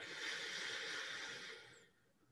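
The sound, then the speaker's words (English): A single slow inhale through the left nostril during a breathing exercise: a soft, airy hiss that holds steady for under two seconds and then fades to near silence. “Release the left. Inhale through the left.”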